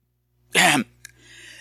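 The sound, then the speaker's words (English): Someone clears their throat once to shift something caught in it: a loud, rough burst, then a faint click and a soft, breathy trailing exhale. “Sorry, I got something caught in my throat there.”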